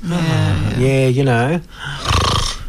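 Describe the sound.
A voice imitates snoring, as of someone dozing on a couch after lunch. A loud, drawn-out throaty drone wavers in pitch, then breaks off briefly before a second, noisier rasping snort.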